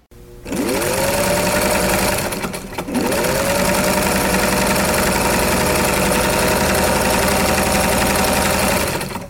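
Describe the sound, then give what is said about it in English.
A sewing machine runs with a loud, steady mechanical whir. It spins up at the start, pauses briefly, then speeds up again and runs evenly until it stops. “The sound you just heard was a recording of a sewing machine.”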